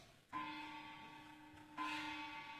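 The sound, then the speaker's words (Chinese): A bell strikes twice to call workers to their shift, each strike leaving a clear, sustained ringing tone that lingers until the next. The strikes are well spaced, faint overall, and no one speaks. “钟响了”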